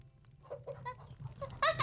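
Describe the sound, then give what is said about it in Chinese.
Chickens clucking at a rural home while waiting to be fed: a few short, bright calls early on, then a louder burst of overlapping clucks at the end. “那鸡还没喂呢，奶奶去喂鸡啊。”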